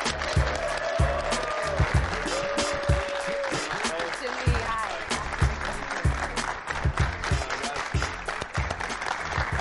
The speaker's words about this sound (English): Now I need a little bit of help. Give me a nice welcome for quarterback Jimmy Garoppolo,